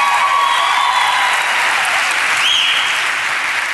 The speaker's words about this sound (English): Come on, let's give it up for Mama.